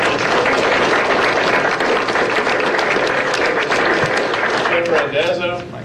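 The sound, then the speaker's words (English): Audience applause fills the room as a dense, steady wash of clapping that holds evenly throughout, with a voice emerging over it near the end as the clapping begins to thin. “Let's have a hand for them.”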